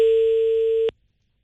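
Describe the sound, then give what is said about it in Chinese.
A ringback tone on a call to a mobile phone sounds as one loud, flat, mid-pitched beep lasting just under a second, then cuts off abruptly into silence. “正在接通。这应该是一部手机电话，按说应该有人接。”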